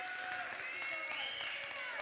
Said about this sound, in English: go ahead and give him a hand clap of praise this morning